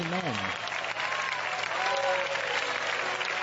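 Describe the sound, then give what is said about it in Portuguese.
A church audience applauding in praise to God: a steady, continuous wash of many hands clapping at an even level, with a voice briefly heard at the start. “Podem louvar a Deus com palmas.”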